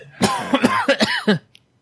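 A person coughing and sputtering after inhaling a little bourbon: a rapid series of several harsh, choking coughs packed into about a second, then a sudden stop.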